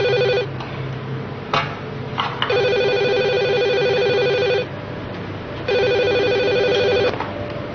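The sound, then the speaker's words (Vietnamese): A telephone rings with an electronic trilling tone for an incoming call from abroad, a bright, steady pattern of repeated bursts with short gaps between them, with no voices. “có điện thoại từ Mỹ.”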